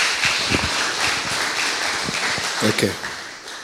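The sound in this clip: Audience applause welcoming a pastor at a church service: steady, dense clapping throughout, with voices heard over it.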